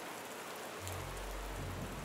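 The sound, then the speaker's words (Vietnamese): Heavy rain falls as a steady, dense hiss that fills the whole clip, with a deeper low rumble joining in after the first second and continuing to the end. “mưa này em thấy ngày càng nặng hạt hơn, chứ không có dấu hiệu tạnh đâu”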